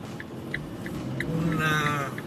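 Car hazard lights ticking inside a car, a steady, regular run of soft clicks over a low engine and road rumble.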